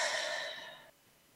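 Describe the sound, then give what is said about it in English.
A single deep breath released as a long, breathy exhale during a guided grounding exercise; it slowly fades, then cuts off into quiet. “take a deep breath in and release”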